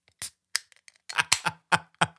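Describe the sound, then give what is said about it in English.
A beer can being cracked open: a few sharp, faint clicks and snaps in quick succession, with a brief cluster of crackling in the middle. “So folks know we actually just cracked open a beer there.”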